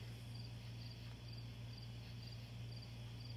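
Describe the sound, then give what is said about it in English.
Crickets chirp faintly in the background in short, regular pulses, repeating steadily over a constant low hum from household appliances. “you hear those crickets? We do apologize for the cricket noises in the background.”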